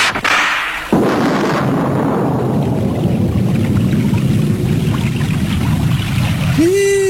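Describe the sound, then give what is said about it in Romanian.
Heavy rain pours down as a dense, loud, steady hiss that starts abruptly and carries on unbroken, with a brief rising tonal sound near the end. “Dar toarnă nu glumă. Da. Ia hai să ne adăpostim și noi lângă grupa aceea.”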